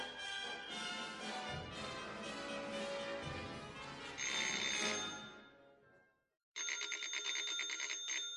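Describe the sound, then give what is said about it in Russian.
A rattling telephone bell rings loudly near the end, a buzzy, rapidly repeating metallic trill that follows a fading passage of music and a brief pause. “Дребезжащий звонок телефона заставил Николя подняться.”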